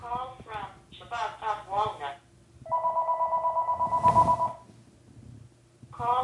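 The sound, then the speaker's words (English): An electronic telephone ring: a warbling tone pulses rapidly for about two seconds, with people talking before and after it. “You think the telephone ringing is going to stop?”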